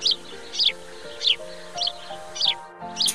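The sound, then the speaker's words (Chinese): Swallows chirping as they fly back to the nest: about six bursts of short high chirps at a steady pace over a soft, constant tonal hum. “啾啾啾啾啾啾啾啾啾啾，是燕儿爸爸和燕儿妈妈回来了，他们又一趟安然地飞回来了”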